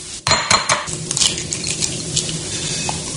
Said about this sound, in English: we're going to go in with 4 egg yolks. Just going to crack them up and separate the yolk from the whites.